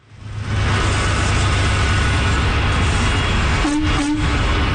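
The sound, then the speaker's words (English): Steady, loud engine rumble of a double-decker tractor trailer pulling up to a church, a dense low drone with broad road-like noise that holds at an even level through the whole clip. “That is the sound of help on the way. A double-decker tractor trailer pulled up to the Metropolitan Bible Church in Nepean yesterday.”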